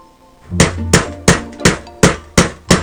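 A hammer strikes a chisel on metal: seven sharp, ringing blows land in a steady, even rhythm, each loud attack fading quickly before the next.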